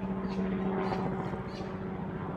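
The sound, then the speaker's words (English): A helicopter flies overhead near an airport, making a loud, steady droning rotor roar with a low hum running through it. No voices are heard. “Excuse the helicopter. I live right near an airport.”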